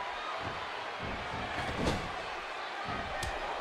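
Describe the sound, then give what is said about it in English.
A wrestler's body slams onto the mat in a scoop slam at a professional wrestling match, a single dull thud rising briefly out of steady crowd noise. “Huge scoop slam and a fist drop by Road Warrior Animal.”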